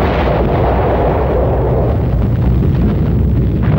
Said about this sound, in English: 2 days later, on August the 9th, Fat Man was dropped on the major military port of Nagasaki.